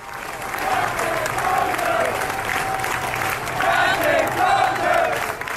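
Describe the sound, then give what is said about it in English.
Hundreds of sailors aboard a ship cheer and applaud their departing captain in a contained space. A dense, steady roar of clapping, whoops and shouting holds throughout and swells slightly toward the end. “hundreds of the sailors who are left aboard meet in a relatively contained space, basically say, we're going to cheer this guy off. They're chanting, Captain Crozier.”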